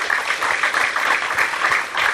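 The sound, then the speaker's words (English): Applause for an entrepreneur at a university economic development event: a thick, continuous wash of clapping that swells and dips slightly but stays loud throughout. “A round of applause for Greg”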